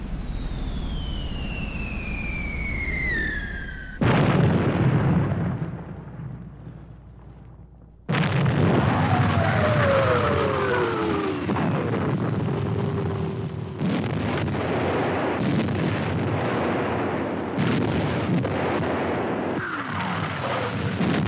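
Artillery bombardment of the D-Day invasion of Normandy: shells whistle down in falling pitch amid heavy booming blasts and a continuous roaring rumble, with several abrupt loud bursts and no voices.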